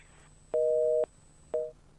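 Busy tone after a phone call is cut off, two steady mid-pitched beeps, the first long and the second short and clipped, standing out clearly over a faint background hiss.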